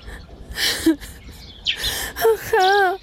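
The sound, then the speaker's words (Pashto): A woman cries in gasping sobs and short, breathy whimpers, ending in a wavering, high-pitched wail. “مورې مه ژاړه”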